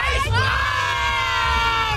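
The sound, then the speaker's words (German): Girls screaming at a festival: a dense, loud, sustained wall of high-pitched voices shrieking together, holding steady without a break from start to end. “Um eure Stimme auf einem Festival zu verlieren, schreit ihr einfach am besten genauso wie diese Mädels hier.”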